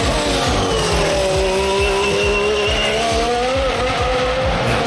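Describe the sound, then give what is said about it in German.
A Formula 1 car with a V6 turbo engine races, its loud, continuous, buzzing engine note holding steady throughout with no voices. “Seit 2014 hat man den umgestellt auf den V6 Turbo Motor, der hört sich so an.”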